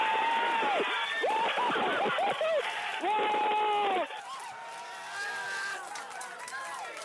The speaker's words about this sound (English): You just heard the reaction to the Curiosity rover's successful touchdown on Mars in 2012